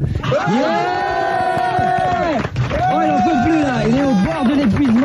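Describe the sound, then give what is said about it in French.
A concert audience gives a standing ovation, a loud, sustained crowd roar with cheering under a strong, long-held pitched voice that shouts and calls out over the noise. “Incroyable ce soir, standing ovation”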